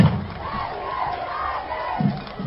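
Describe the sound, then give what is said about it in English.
Crowd cheering at a high school football game: a short, muffled roar of many voices shouting together, with a brief swell near the end. “It's really refreshing to see how the crowd, the parents, the students, the fan base is into this, because I remember not too many years ago, hardly anybody was here. You could hear a pin drop, but not tonight.”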